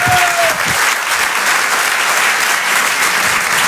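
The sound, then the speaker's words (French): Loud, sustained applause from a theatre audience at a live comedy show at the Apollo Théâtre in Paris, a thick continuous wash of many hands clapping that stays strong and steady throughout. “Faites du bruit s'il vous plaît pour Mado sur Rire et Chanson.”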